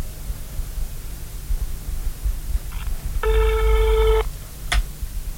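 A telephone ring tone sounds while a number is being dialled on a call. It comes as one clear ringing burst of about a second over steady static hiss, followed shortly by a brief high chirp.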